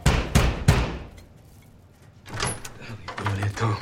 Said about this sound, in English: Ludlow hammers on the door of a plush house